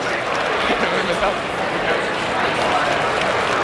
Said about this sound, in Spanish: la ovación que le están tributando a Roger Federer